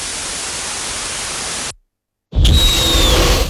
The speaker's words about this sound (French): j'ai pas réussi à retrouver exactement le même son de jet, d'un son d'une fréquence de 20 Hz, alors ça, il vous faut un bon système son pour l'entendre, et d'un bruit blanc.